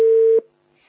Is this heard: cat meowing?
no